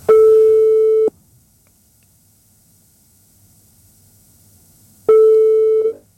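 A telephone call rings out with two loud, steady ringback tones, each about a second long. A near-silent line of roughly four seconds separates them.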